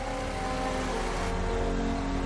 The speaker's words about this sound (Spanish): Los bomberos ponen en marcha un pequeño generador conectado a una tenaza neumática.